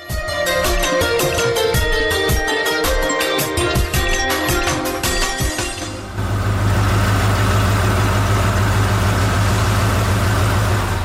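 A car engine runs loudly, first with a pulsing, rattling texture. Partway through it settles into a steady, deep idling rumble.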